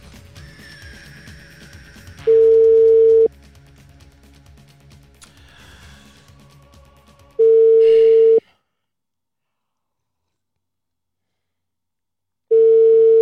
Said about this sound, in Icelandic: Þá hringi ég.